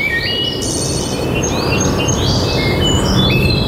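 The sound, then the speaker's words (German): Forest ambience in Bavaria with birdsong: several birds chirp and tweet in quick, high, bright calls over a steady broad rushing background that stays loud throughout. “Hier im Wald klingt Bayern anders. Hör hin. Bäume, Wurzeln,”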